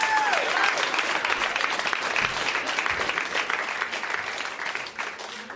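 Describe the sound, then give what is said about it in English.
An audience applauds to welcome a speaker onto the stage at a storytelling event in Kitchener. The clapping is steady and dense, with a brief whistle or cheer at the outset, then eases slightly toward the end. “Please welcome G to our stage.”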